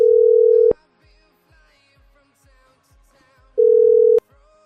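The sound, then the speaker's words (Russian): Telephone ringback tone while dialing a number: two long, steady, loud tones separated by a quiet gap of a few seconds, with faint murmuring in between. “Давайте еще раз наберем.”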